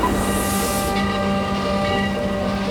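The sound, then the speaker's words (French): A train at the Gare de l'Est station platform in Paris, heard as a loud, steady mechanical drone with sustained humming tones and hiss running unbroken throughout. “À la gare de l'Est à Paris, l'effervescence est palpable. Les athlètes, sacs sur l'épaule et visages concentrés, montent à bord du train en direction de Berlin.”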